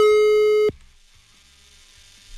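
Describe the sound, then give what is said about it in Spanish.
A telephone line tone sounds as a number is dialed: one loud, steady tone holds for under a second, then cuts off abruptly to near silence. “Sale, ya está marcando, ¿eh? Para poder llegar a ti.”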